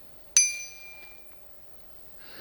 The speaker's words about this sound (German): Die Fahrradglocke BBB 120, die laut Händlerbeschreibung ein lautes und deutliches Pling macht.